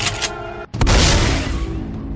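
Gunfire in the video game Left 4 Dead, aimed at a Smoker enemy: after a brief hush, a loud booming blast breaks in with broad noisy energy, then a dense ringing wash slowly tails off.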